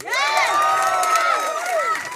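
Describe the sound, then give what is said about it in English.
Audience cheering and shouting at a live show in Ireland, loud overlapping voices with rising and falling whoops over a bed of crowd noise, sustained without a break. “By round of applause, how many people are from Dublin?”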